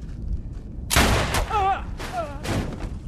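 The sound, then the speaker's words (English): A gunshot aboard a ship: one sharp, loud crack with a noisy tail, followed by brief voices. “Shoot him.”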